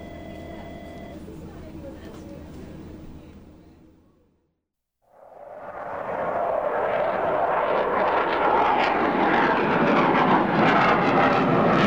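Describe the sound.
Aircraft engine roar on an approach to land in thick fog. A fading hum drops to a brief silence, then a broad roar swells steadily and holds loud to the end.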